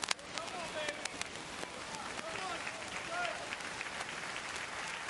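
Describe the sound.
Congregation applause during a church sermon: a steady, dense wash of clapping that holds at an even level for the whole stretch, with voices calling out over it.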